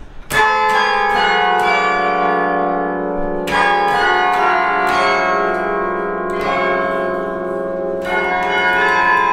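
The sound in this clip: Carillon bells played by hand from the console in an intricate piece: loud, overlapping bell strikes with long ringing tones, several strong clusters of notes sounding over a sustained shimmer.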